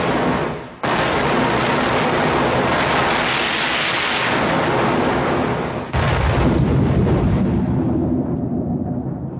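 A ship's cannon fires toward a point on the shore: two heavy booms, each swelling into a long, dense roar that rolls on for several seconds.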